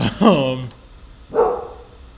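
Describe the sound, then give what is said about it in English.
A pet dog barks indoors while its owner is working: two short, loud barks separated by about a second of quiet, the first drawn out with a slight whine. “be quiet over there. That's my dog over there.”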